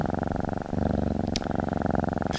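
A cat's purr plays continuously from a purring machine, a steady, rhythmic low rumble of rapid pulses with no voices over it.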